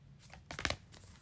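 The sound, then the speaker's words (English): A deck of 64 paper affirmation cards is shuffled in one quick, faint flurry of papery flicks and rustles near the middle, with soft handling noise around it. “I'm probably gonna find it immediately, actually. This is from my How to Love Yourself cards, a deck of 64 affirmations by Louise Hay.”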